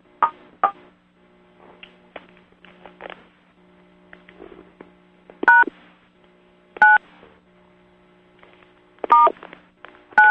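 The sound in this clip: Telephone keypad DTMF tones pressed to stop a conference call recording: a series of short, sharp beeps at irregular intervals, some loud and some faint, over a faint steady hum.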